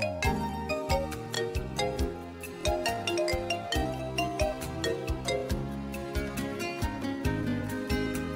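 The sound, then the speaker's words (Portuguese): Phone ringing with a WhatsApp call ringtone: a bright, repeating pattern of chiming melodic notes looping in a steady rhythm throughout, with no talk over it. “Gente, vou atender você no zap, hein? Ó o zap do Zezé. Tocou, tá tocando, ó.”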